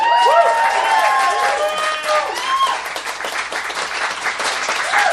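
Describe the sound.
Audience applause at a live show, a loud, dense wash of clapping with voices rising above it, sustained and steady across the whole clip.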